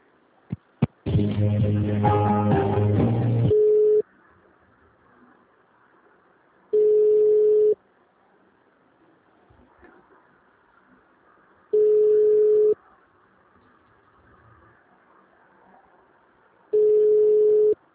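Telephone tones during a call transfer: a brief, dense chord-like burst, then a steady single-pitched ring tone that repeats three more times, each about a second long with long silent gaps between.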